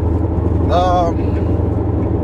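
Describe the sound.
A car's steady engine drone and road rumble play on while driving, a continuous low hum with a voice briefly heard over it.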